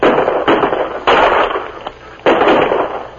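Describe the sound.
Rifles fire in an ambush on a wagon in a canyon. Several sharp, loud cracks come at irregular intervals, each trailing off in a ringing decay, with no voices.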